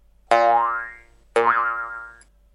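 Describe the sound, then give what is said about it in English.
Cartoon boing sound effect, with two springy, twanging boings one after the other. Each is loud at its onset, then wobbles in pitch and decays over roughly a second. “can you put a funny cartoon sound effect right here?”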